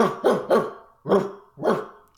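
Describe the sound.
A person imitates a puppy barking with rough, throaty yips. There are five short bursts, three close together and then two more spaced apart. They are fairly loud and heard alone, with no other talk.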